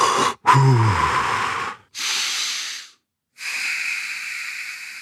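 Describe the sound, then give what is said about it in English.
Slow, controlled breathing, with a few long airy breaths separated by short pauses. The first breath carries a faint voiced, throaty tone, and the later ones are steady, soft hisses. No talk is heard. “That means I'm going to slow my breath.”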